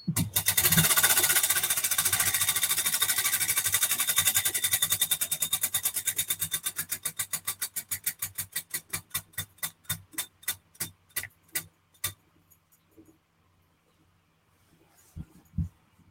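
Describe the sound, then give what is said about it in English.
A prize wheel spun at a live giveaway ticks in a dense rapid stream that steadily slows into widely spaced, separate clicks until it stops, followed by a couple of faint knocks. “spin that wheel”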